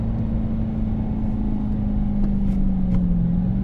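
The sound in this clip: A car engine drones steadily in third gear, holding an even, loud hum whose pitch dips briefly near the end before settling.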